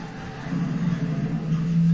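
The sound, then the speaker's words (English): Car engine from the film Commando, a steady low drone that swells slightly and firms into a held tone near the end. “Clearly he can drive a car in here.”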